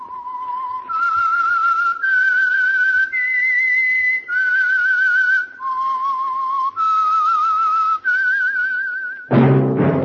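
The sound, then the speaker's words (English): Whistled theme tune of a mystery radio drama: about eight long, clear held notes that step up and then down in pitch, loud and alone, ending in a sudden loud burst of sound. “That whistle is your signal for the Signal Oil program, The Whistler.”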